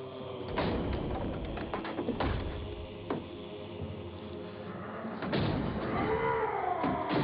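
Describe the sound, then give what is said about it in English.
A door is shut and locked: a few heavy, dull thuds and knocks rise out of a steady low hum, with a short bright clatter among them. “Lock the door, quickly!”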